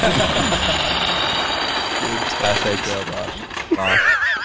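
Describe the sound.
A Toyota Tacoma's engine roars and chugs with rapid mechanical rattling as it rips the rear bumper off another Tacoma. A sharp crack comes near the end, followed by excited voices.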